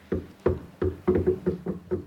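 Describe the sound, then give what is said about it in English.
Knocking on a door: a run of many dull, low thuds, first slow and evenly spaced, then quicker and steady. The knocks are moderately loud, with no voices. “Come in if you stop knocking.”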